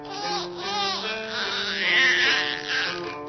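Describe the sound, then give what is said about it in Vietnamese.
A baby cries in sustained, wavering wails that rise and dip in a continuous, fairly loud stream, with no breaks for silence. “Ôi cha, sao nó còn khóc kìa.”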